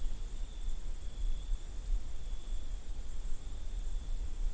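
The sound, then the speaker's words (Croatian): Crickets chirp in a dense, continuous high-pitched trill that holds steady and unbroken throughout, over a low rumbling background noise. “Zrikavci su zapravo zvuk zvijezda.”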